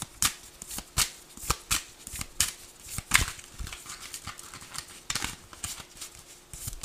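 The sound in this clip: Tarot cards are shuffled and drawn in a long run of crisp, papery riffles and snapping flicks. The bursts are irregular, some sharp and loud and others softer, and they continue throughout.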